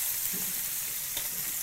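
Food sizzling as it browns in hot oil in a pan, a dense, continuous hiss that stays even and fairly loud throughout, with no talk.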